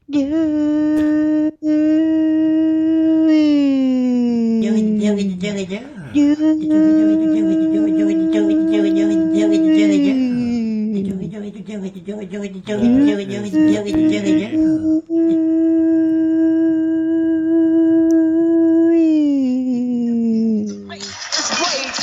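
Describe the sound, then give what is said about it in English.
A voice imitates an air raid siren, a loud, sustained wail that climbs and falls in slow pitch sweeps for over twenty seconds, broken only by brief breaths. “NERD35 air sirens go off when we're doing a show. They go,”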